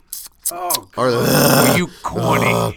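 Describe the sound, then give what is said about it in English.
A voice groans, imitating an audience groaning at a joke, with a few drawn-out, low sounds whose pitch slides, the longest one in the middle. “I hate the groan.”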